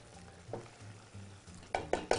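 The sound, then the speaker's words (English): A spoon stirs risotto in a pan after shallot and lemon juice go in, giving soft, quiet scraping over a faint sizzle, then three sharper scrapes close together at the end. “And again, continuing to stir our risotto.”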